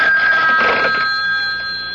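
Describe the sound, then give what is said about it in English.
Telephone ringing tone heard on a call placed from a public phone, a loud, steady electronic tone sustained across the whole moment with a brief swell of noise near the start, easing slightly at the end. “Then he crossed to the public phone to make a call.”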